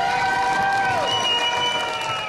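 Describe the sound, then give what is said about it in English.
Excited students cheering and applauding as a teacher's award is announced, a loud, continuous roar of high shrieking voices mixed with clapping throughout. “And Nenana students went wild when their local recipient was announced.”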